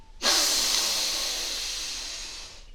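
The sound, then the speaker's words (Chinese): A single long, deep breath is drawn in during a children's guided breathing meditation. The breathy hiss starts abruptly and loudly, then fades gradually over about two seconds. “来，和你的师傅孙悟空一起深深的吸一口气吧，”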